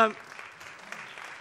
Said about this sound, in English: Thank you, boys. Give him a round of applause.